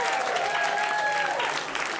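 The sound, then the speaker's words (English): Audience applause from a live stand-up comedy crowd: loud, dense, steady clapping that fills the whole two seconds, then cuts off abruptly at the end. “Thank you for trying to get that round of applause going”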